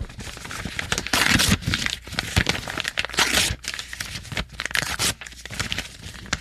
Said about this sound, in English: Smaller pieces, Hayes? At this point, I could still put it back together pretty easily with just some tape. So if you could make smaller pieces out of the contract. And just really shred it into little tiny pieces.